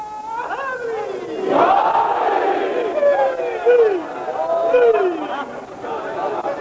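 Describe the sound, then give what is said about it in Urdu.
At a religious gathering, a large crowd loudly shouts a slogan in unison. A few strong chanted surges carry voices that swoop and fall in pitch, with lulls of murmuring crowd noise between them. “آسمانی نعرہ میں سننا چاہتا ہوں.”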